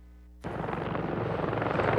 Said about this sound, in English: This resident looks on in awe as helicopters carrying hundreds of gallons of water fly over her small town.